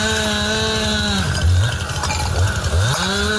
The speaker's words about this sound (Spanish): Las labores de desbroce que realizaban efectivos del Plan Infoca esta noche para tratar de frenar el avance de las llamas